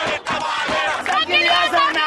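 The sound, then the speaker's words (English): A boisterous crowd at a political gathering in Egypt cheers and shouts, many voices overlapping in loud, ragged bursts of yelling that rise and surge, with no single voice standing clear. “Just 15 months after demonstrators celebrated the fall of Hosni Mubarak, a much smaller but no less boisterous crowd cheered the reappearance on the political scene of the man sometimes called the power behind Mubarak.”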